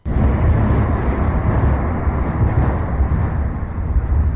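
Steady traffic rumble from the Old Sava Bridge, overhead of refugees sheltering on the quay beneath it, forms a continuous, dense, low-heavy roar with no distinct separate events.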